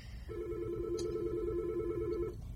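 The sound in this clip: A telephone rings for an incoming call to a radio show: a single sustained electronic ring of about two seconds, a steady mid-pitched buzzing tone, fairly faint over a low background hum.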